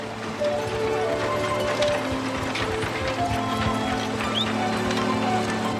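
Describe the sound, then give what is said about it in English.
A horse-drawn combine, pulled by a team of horses, works through a wheat field with a steady mechanical clatter of ratcheting gears and rattling parts that carries on evenly throughout. “Soon after, in the field, a team of horses pull Caleb on a combine.”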